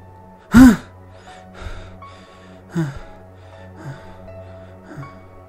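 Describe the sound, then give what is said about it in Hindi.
Heavy breathing from a sweat-drenched man waking from a nightmare: one sharp, loud gasp, then four quieter, evenly spaced breaths over a low, steady drone. “वो पूरा पसीना पसीना हो रखा था लंबी लंबी सांस लेने लगा”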